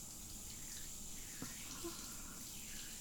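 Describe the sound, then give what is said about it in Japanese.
Hot water runs from a tap while its temperature is checked before rinsing a customer's back, a faint, steady watery hiss that holds evenly throughout. “今お湯の温度を確かめていますので。”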